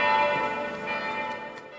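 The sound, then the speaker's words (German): Church bells ring for peace as a sustained, layered wash of metallic tones with rich overtones. The bells hang at a fairly quiet, even level, with no voices. “Die Kirche läutet Glocken für Frieden. Ich mache kurz Pause.”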